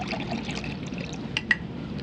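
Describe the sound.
Water poured into a glass at a restaurant table makes a steady, soft splashing rush, broken near the end by a couple of brief, bright clinks.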